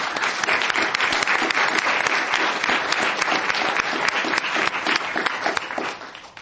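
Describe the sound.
Dense applause from an audience welcoming speakers on stage, a loud, steady wash of clapping that holds evenly and then thins out near the end.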